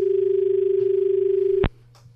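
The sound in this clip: A telephone dial tone sounds after a dropped call: a steady, mid-pitched tone over a low hum runs for over a second, then cuts off with a sharp click into near silence.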